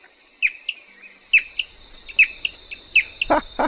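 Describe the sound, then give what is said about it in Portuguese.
A bicudinho bird answers a played-back recording of its call with short, sharp chirps in quick pairs, repeated several times, over a steady thin high buzz. “Isso é o bicudinho pistola respondendo o suposto intruso.”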